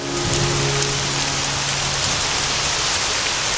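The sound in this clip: Steady rain falls on a surface, a dense, continuous hiss of drops that stays at an even, fairly loud level for the whole stretch with no voices.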